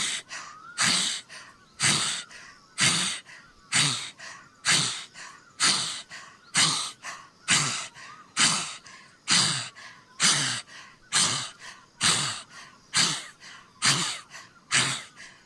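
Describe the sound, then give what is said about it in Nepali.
Deep open-mouth breathing from a meditation breathing exercise: many forceful, airy breaths repeat in a steady rhythm, about one each second, each sharp at the start and fading quickly, with no talking between them. “श्वास फाल्यो तानियो पेटलाई पनि हेर्नुहोस् श्वास फाल्दा पेटभित्र श्वास तान्दा पेट बाहिर”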